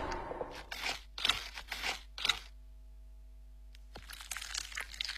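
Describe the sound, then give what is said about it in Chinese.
Crunching and tearing as a duck's skin is broken and the bird is cut open along the breastbone, fairly quiet: a few short crackling bursts, a pause, then a longer stretch of crisp crunching. “破皮，顺着胸骨开膛，”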